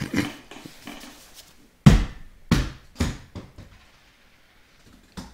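A Wilson volleyball bounces with a few hollow thuds that come closer together and fade, then one more bounce after a quiet pause.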